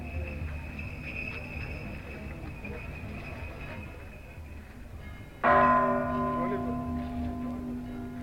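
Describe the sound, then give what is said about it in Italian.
A basilica bell tower strikes noon after a festival dance amid a dense crowd: one loud, bright strike about two-thirds through, ringing on with humming, slowly fading partials over steady insect-like chirring and low crowd murmur. “La danza è finita e il campanile della Basilica della Virgen de Guadalupe suona il mezzogiorno.”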